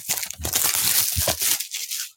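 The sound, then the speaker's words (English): Loud crinkling and ripping of plastic wrapping as a box of trading card packs is opened and a pack torn apart, rustling in a few uneven surges before trailing off. “opening the box right now. Then we're gonna cut this podcast short. Oh, not short, but maybe we'll do a two-parter. Then we'll finish up the rest of the first round. But first, I'm opening up the box right here.”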